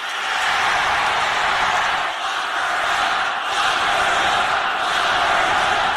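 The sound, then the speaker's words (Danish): At a Donald Trump rally, a crowd chants "lock her up" in a loud, sustained roar of massed voices. Brief, evenly spaced dips in the noise follow the beat of the chant. “der bryder publikum ud i koret igen, vi kender fra valgkampen, da Hillary Clintons navn bliver nævnt, lock her up, og han siger ingenting.”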